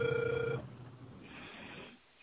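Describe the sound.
A telephone ringback tone sounds while a call is being dialed: one steady, buzzy mid-pitched tone lasting about half a second, then it cuts off, leaving faint line hiss.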